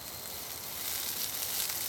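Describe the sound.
Yakisoba sizzles on a charcoal barbecue grill, a soft, steady frying hiss that grows slightly louder partway through.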